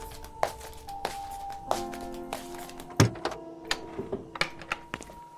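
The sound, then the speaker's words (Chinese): A door being opened at home for a parcel delivery: a few soft knocks and taps with one louder thunk midway, all faint, with no voices. “嗯，我去开门。”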